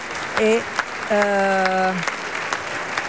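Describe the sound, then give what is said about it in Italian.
A theatre audience applauds as the actors come forward a second time for the curtain call. The clapping is steady and full, with a voice speaking over it. “e tutti quanti adesso si avanzano per la seconda volta a prendere gli applausi del teatro.”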